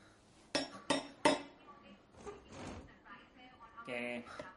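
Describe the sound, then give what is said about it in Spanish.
A metal cup strikes the bars of a cell door: three loud, ringing clanks in quick succession, then softer metallic clatter and rattling. “Mira a través de las rejas de la puerta. Coge una taza y golpea los barrotes.”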